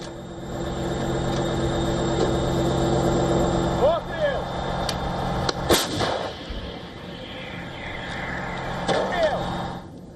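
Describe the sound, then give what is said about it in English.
Artillery fire from a domestically produced Ukrainian self-propelled howitzer shelling Russian dugouts in the Donetsk region. One sharp, loud blast stands out amid steady engine rumble and a few smaller bangs, with people talking over it. “in the heavily contested Donetsk region, Ukrainian troops and artillery targeted Russian dugouts with a domestically produced self-propelled howitzer.”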